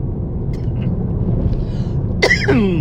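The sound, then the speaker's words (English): A person coughs briefly near the end, with irritated lungs after holding their arms up, over a low background rumble. “I'm coughing because I had to hold my arms up, and if I hold my arms up, my chest compresses, and then my lungs get irritated.”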